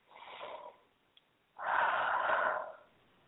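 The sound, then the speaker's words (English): Deep breathing, with a soft airy inhale followed after a pause by a longer, louder, rushing exhale, heard alone. “Take in 3 deep breaths once again.”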